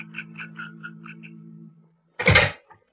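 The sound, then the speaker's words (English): A safe door is opened after the dial has been worked: a soft, buzzing, pulsed rattle over a low hum, then a loud, heavy clunk and scrape, followed by a second sharp clunk. “I worked the dial to the safe for an hour before I got it open.”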